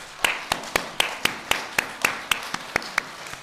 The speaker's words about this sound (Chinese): 也请弟兄姐妹用热烈的掌声来欢迎他们。